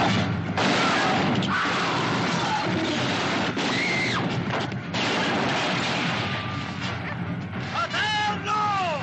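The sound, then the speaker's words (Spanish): Gunfire erupts in a shootout from a 1972 western film as loud, repeated blasts mixed with crashes and yelling, with talk running over the action. “De pronto, Roy entra y comienza a disparar a diestro y siniestro.”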